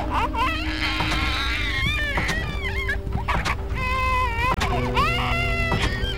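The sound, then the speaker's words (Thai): A baby crying loudly in repeated high, wavering wails broken by short catches of breath, over a low background rumble. “โอ้ทำไมเขาร้องไห้ขนาดนี้นะ”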